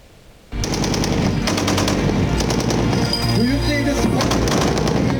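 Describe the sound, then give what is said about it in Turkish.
Rapid automatic fire from the Tolga close air defence system during test firing in Konya breaks in abruptly after a brief lull and continues as loud, dense, sustained bursts of shots. “Yerli ve milli imkanlarla geliştirilen yakın hava savunma sistemi Tolga Konya'daki test atışlarını başarıyla yaptı.”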